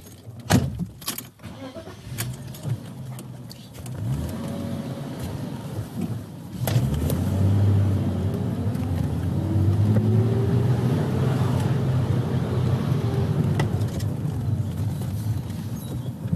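A car drives off from a rear entrance toward a warehouse, its engine growing louder partway through and then holding a steady rumble with shifting engine tones, after a few faint clicks at the start. No one speaks.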